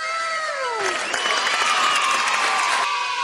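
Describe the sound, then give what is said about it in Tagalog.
Applause and clapping from a crowd, with cheers and shouts. It begins abruptly about a quarter of the way in and continues as a steady, dense wash of clapping to the end. “Alam kong tahimik ka lang, pero pumapalakpak ka na rin pala, ha?”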